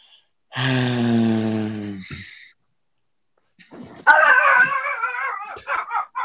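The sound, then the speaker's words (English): Pet dogs howl and yip: one long, steady howl, then after a brief silence a louder, wavering run of high yips and whines. “those are my dogs. Sorry.”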